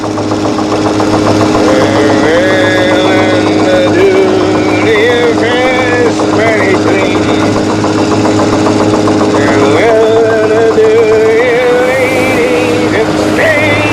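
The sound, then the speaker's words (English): A boat engine races at maximum RPM past its limit, overheating and pouring black smoke while its bearings burn out. It holds a loud, steady, droning roar with layered tones for the whole stretch, and voices are heard over it. “The needle on the RPM gauge hits over the maximum, and black smoke pours out of the engine compartment.”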